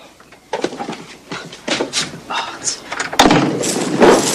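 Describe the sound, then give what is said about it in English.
Cupboard door bumps and closes as an animal is shoved inside, a busy string of knocks, rattles and thuds with a heavier bang late on. “He gets out of bed and picks up the animal and puts it in the cupboard.”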